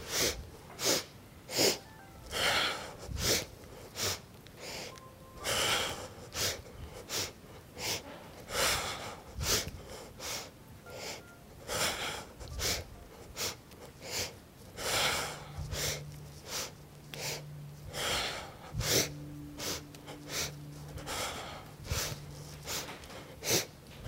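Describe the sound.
Repeated breath sounds during a yoga exercise done alongside squats: many short, loud, airy bursts at a fairly even rhythm, with a low steady hum entering in the second half.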